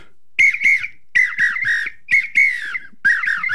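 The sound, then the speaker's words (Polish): A wooden apito whistle blown in four short bursts, each split into two or three shrill, warbling high notes with a breathy, slightly rough edge. “To się nazywa apito. To jest drewniana taka gwizdawka. I to podobno się robi tak.”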